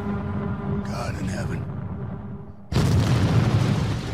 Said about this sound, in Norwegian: der sprengte de dødsstjerna